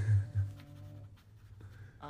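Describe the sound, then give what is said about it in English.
Pen scratching on paper as someone writes down names to keep score for a group recap, a few faint strokes over a low steady hum. “Yeah, I'm gonna write.”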